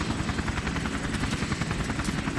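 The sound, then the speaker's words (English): A helicopter runs steadily as a group climbs aboard. Its rotor gives a fast, even thudding pulse over a dense, loud roar that holds constant throughout, with no voices. “The suited man helps the group board a helicopter.”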